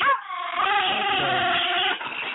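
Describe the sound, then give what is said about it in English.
A chihuahua gives one drawn-out, high whining yelp that holds for about two seconds with a slight waver in pitch, then a softer brief tail, alone without talk. “we do have packs of wild chihuahuas running around, and the Las Cruces Animal Shelter is overcrowded. He just wants to be petted. Let's go pet him.”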